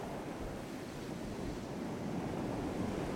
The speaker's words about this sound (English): Hopefully the sound of the lake and the wind has acted as some sort of healing new age tape of peaceful, soothing sounds.